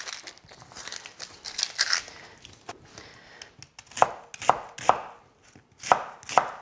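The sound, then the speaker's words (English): A knife chops onions roughly. Soft crinkly rustling and handling come first, then several sharp, loud chops land at uneven intervals near the end. “So we'll just chop these onions. Now we don't need to do them too delicately.”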